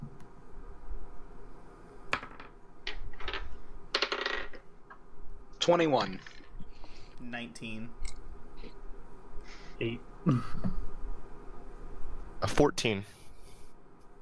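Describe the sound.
Dice rolling for insight checks in a tabletop role-playing game: a few sharp clatters and rattling clicks scattered through the stretch, with people talking throughout.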